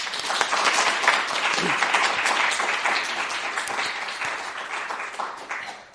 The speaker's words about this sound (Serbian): Na početku ću vas zamoliti da je pozdravimo aplauzom.